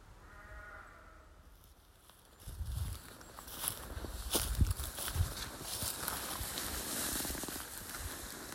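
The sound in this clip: Footsteps walking uphill through Westy Bank Wood: soft, irregular crunching steps begin after a quieter opening and continue steadily to the end.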